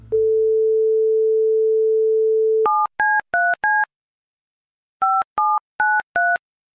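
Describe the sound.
A telephone call is dialed: a steady, single-pitched dial tone holds for a few seconds, then eight touch-tone keypad beeps follow in two groups of four, separated by a short pause.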